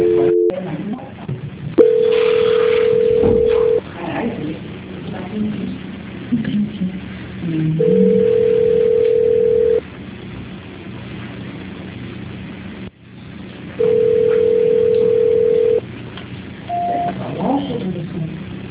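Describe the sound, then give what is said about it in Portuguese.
Telephone call transfer tones on a narrow phone line: three long, steady beeps at even intervals and a short, higher beep near the end, over muffled line noise. “só um minutinho que eu vou transferir a ligação, tá? Obrigada. Imagina. Transferência.”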